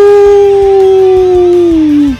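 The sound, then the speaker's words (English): A person's voice imitates a wolf howl: one loud, sustained, tonal cry lasting about two seconds, its pitch gliding gently downward and then dropping sharply as it fades out. “the lone wolf, ow!”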